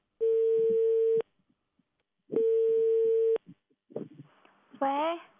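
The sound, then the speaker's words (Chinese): A telephone line tone sounds while calling a government consumer-protection office: two steady, identical beeps about a second long with a pause between them, followed by soft clicks and a brief voice as the line picks up. “我们看这个电话能不能打通。不能打通的话，我们就打一下办公室嘛。”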